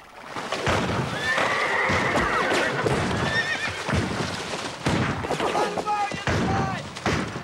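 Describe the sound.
A horse whinnying loudly, with hoof clatter and a few sharp pistol shots, as riders dismount and take cover behind boulders in a gunfight; busy, continuous noise throughout.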